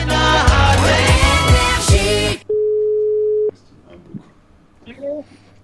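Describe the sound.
A steady telephone line tone while a radio call is connected, lasting about a second after loud music cuts off, followed by faint voices.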